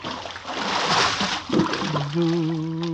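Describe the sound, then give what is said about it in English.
In a radio drama, a person pushed overboard hits the water with a loud, noisy splash and brief churning slosh. “Hey, why you're pushing me overboard? Hey! Help, Willie. You mustn't wake the others. But I can't swim.”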